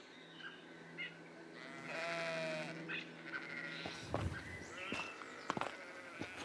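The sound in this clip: Sheep bleating on a walking trail, where the animals graze like a living lawnmower. A few quavering bleats rise faintly, one long drawn-out, followed by scattered soft knocks and clicks.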